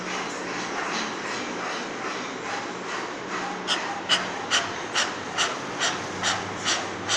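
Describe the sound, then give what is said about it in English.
A person does dog breathing, the Bhairava Pranayama yoga exercise, panting with the tongue out and hands pressing the floor, imitating a dog. Quick rhythmic breaths pulse steadily and grow more distinct in the second half. “Dog breathing, Bhairava Pranayama. Yeah, raise your head a little bit. Now keep your tongue out,”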